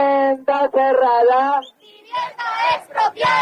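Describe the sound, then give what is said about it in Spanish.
A protest rally in front of the Alfredo Kraus auditorium in Las Palmas de Gran Canaria chants slogans in support of an 87-year-old woman evicted from her home. Voices shout two rhythmic, clipped phrases separated by a brief pause. “Este era el sonido de la concentración celebrada en Las Palmas de Gran Canaria frente al auditorio Alfredo Kraus en apoyo a Mari Carmen”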